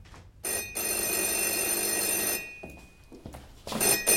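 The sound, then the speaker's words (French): A telephone bell rings at home: one long, loud, shrill ring, a short gap, then the start of a second ring, with no voices. “À peine est-il rentré chez lui que le téléphone sonne.”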